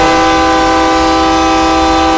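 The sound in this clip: A train horn blows in one loud, sustained chord-like blast that holds steady and unbroken for the whole clip, with no voices.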